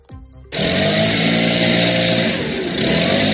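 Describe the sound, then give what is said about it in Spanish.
Leaf blowers and street sweeping machines clear fallen autumn leaves in a city centre. A loud, steady engine roar with a buzzing whine starts abruptly after a brief quieter lead-in and holds throughout, swelling slightly near the end. “Ya están funcionando las primeras sopladoras de aire y las máquinas barredoras.”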